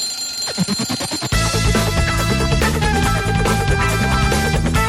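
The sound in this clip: An alarm clock rings in a quick burst of bright, bell-like strokes for just over a second, and then loud music starts and carries on steadily to the end.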